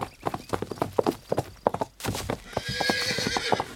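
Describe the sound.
Horse hooves clip-clopping in a quick, steady rhythm as riders head toward a paddock, then a loud whinny rings out over the continuing hoof beats.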